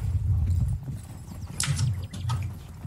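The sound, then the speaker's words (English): Hooves clip-clop from a horse-drawn wagon rolling down a trail, with a steady low rumble underneath and a few brighter clatters partway through. “So your wagon is rolling down the trail when,”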